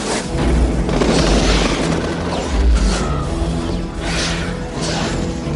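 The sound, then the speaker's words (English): Incoming bombs explode in a dense barrage of heavy booms and rumbling blasts, loud throughout, with a few stronger impacts standing out over a continuous roar. “Bombs! Incoming!”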